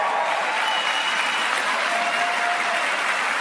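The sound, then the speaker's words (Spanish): An audience applauds at a talk: dense, sustained clapping that stays loud and even throughout, with no voices standing out. “Estos señores que ven aquí, denles un aplauso, por favor.”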